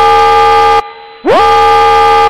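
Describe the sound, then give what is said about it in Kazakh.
Building fire alarm sounding a loud, harsh, horn-like tone in two blasts separated by a short gap, the second blast opening with a quick upward swoop in pitch before holding steady. “Внимание! Пожарная тревога.”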